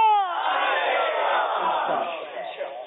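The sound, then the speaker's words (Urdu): Crowd shouting a slogan response in unison during a verse-contest segment of a religious gathering. A brief single call opens into a loud, sustained massed shout lasting several seconds. “نعرے کا جواب بھرپور دینا ہے”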